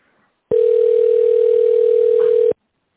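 A single steady ringback tone sounds for about two seconds on a phone line while a caller waits for an operator, loud and even with a plain buzzing pitch, starting and stopping abruptly.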